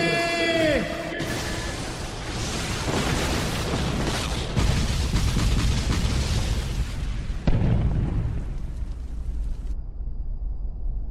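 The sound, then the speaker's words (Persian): A control tower explodes with a loud, sustained roar of rumbling and crackling debris lasting many seconds. A couple of sharper bursts punch through the din before it thins out near the end. “این دیگه صدای چی بود؟ برج کنترل منفجر شد.”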